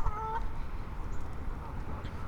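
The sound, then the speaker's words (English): Geese honk by a pond near a boardwalk outdoors, with a short burst of honking calls at the start that fades into steady, faint background noise. “They're honking, and there's a goose up here on the boardwalk.”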